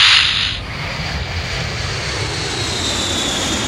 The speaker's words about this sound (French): Vous êtes un pilote d'avion et le décollage est imminent. Toutes les informations dont vous avez besoin pour gérer votre vol vous sont envoyées par la tour de contrôle. La voie est libre, pouvez décoller.